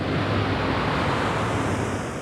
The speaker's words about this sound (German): Wasser, Wasser! Richtig. Dieses Wasser ist ein Bach.